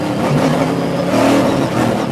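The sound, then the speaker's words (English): A race car engine roars on a track as the car gets going: a dense, loud, continuous rasp of engine and road noise holding steady throughout, with no voices. “But you can hear what the power this car has.”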